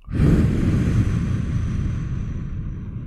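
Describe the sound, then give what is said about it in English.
A deep breath drawn as part of a calming breathing exercise, in through the nose and out through the mouth, heard as one long, loud, airy rush that holds steady and fades slightly, with no talk. “I'll just demonstrate. So you breathe in real deep, hold it, and breathe out. So in through the nose, out through the mouth.”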